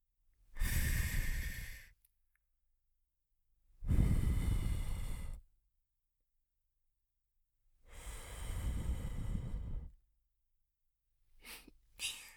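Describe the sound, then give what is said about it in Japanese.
Gentle blowing of breath into a listener's ear, heard as three long, soft, airy puffs each lasting over a second and separated by quiet pauses, then a shorter final puff. “少し恥ずかしいですが、ふうふうします。”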